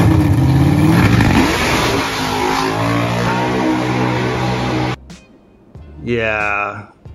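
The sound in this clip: Loud engine revving of a Dodge Dragpak drag racing car: a sustained, harsh roar that cuts off abruptly, followed by a short lull and then another rising rev.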